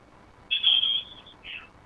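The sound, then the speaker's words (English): A telephone ringing with an incoming call, heard as two bright electronic trill bursts, the first longer and louder than the second, alone without voices. “Well, we're getting a call here. Let's go back to the phones.”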